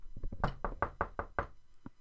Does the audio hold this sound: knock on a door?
yes